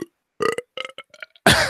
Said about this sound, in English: One big belch.